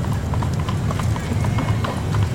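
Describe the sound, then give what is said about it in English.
Steady clip-clop of horse hooves pulling a carriage, many even hoofbeats in a slow, regular rhythm, with voices present throughout. “This carriage is pretty slow.”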